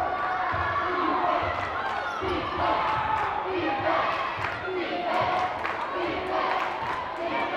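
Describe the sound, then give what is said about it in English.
A basketball is dribbled at midcourt during a women's game, its rhythmic bounces blending into a loud, continuous crowd roar. “Still dribbling out midcourt.”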